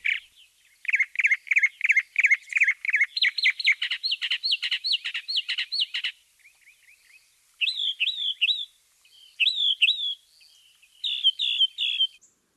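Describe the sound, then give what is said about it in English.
Mockingbird song mimicking other birds' songs: for about six seconds a rapid run of repeated bright chirps, then a few separate bursts of slurred, whistled phrases, each repeated. Clear and alone, with no voices. “it's the song other birds sing, but the mockingbird repeats them three times. And boy, can they mimic. So if you hear a lot of different songs at night being repeated, that's your mockingbird.”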